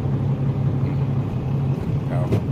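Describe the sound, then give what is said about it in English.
Steady low idle rumble of a truck with a 5.9 Cummins diesel engine, its deep drone holding evenly throughout while people talk over it. “This is a 5.9 Cummins.”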